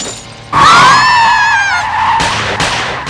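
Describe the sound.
A car's tires screech loudly as it skids while driving, a sustained wavering squeal that begins about half a second in and lasts well over a second, followed by a few shorter rough bursts of noise.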